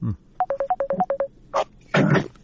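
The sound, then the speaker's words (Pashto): A Skype ringtone sounds for an incoming call as a quick run of short, bright electronic beeps. A couple of brief, noisy bursts follow. “د سکایپ له طریقه یو اوریدونکی دی، دا زنګ هم د سکایپ و خبرې وکړي.”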